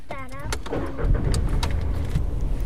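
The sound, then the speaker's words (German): A car drives home on a long trip as dusk falls, a low engine rumble that swells after the first second, with a few sharp clicks over the droning road noise. “Und jetzt hören wir mal, wie es Alva und Bela und ihrer Mutter Julia ging auf ihrer letzten langen Autofahrt.”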